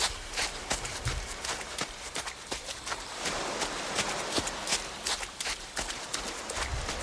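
Footsteps crunching on sand and other surfaces, recorded for the opening of a ballet score: many crisp, uneven steps in a loose walking rhythm, fairly faint, with no voices.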